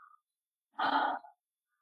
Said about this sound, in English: So you breathe in